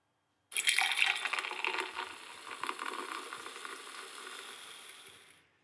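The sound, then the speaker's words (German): Beer refilled at the press of a button, heard as a quiet, steady hissing, fizzing pour. It starts abruptly, holds for several seconds and slowly fades out, with no talking. “Nun ist das Bier aufgefüllt”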